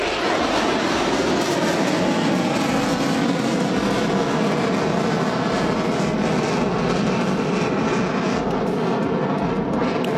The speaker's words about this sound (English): So you can just hear in the background, we've got two F-16s and banking to the right there.